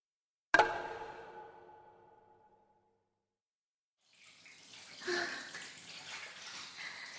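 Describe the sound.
Water pours and splashes in a bath as someone washes: a soft, continuous wash of noise that follows a single bright, ringing clink fading slowly, with a pause of silence in between and no talk.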